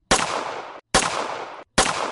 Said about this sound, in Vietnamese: Nhưng giây tiếp theo, tiếng súng bỗng nhiên bạo tạc.